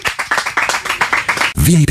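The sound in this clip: Audience clapping for a singer in a radio studio: a quick, fairly even run of sharp claps, after which a loud voice cuts in and carries to the end.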